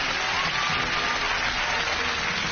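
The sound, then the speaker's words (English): Studio audience applause at a television game show: a steady, loud wash of clapping that holds at an even level for the whole stretch, with no voices over it. “Round of applause!”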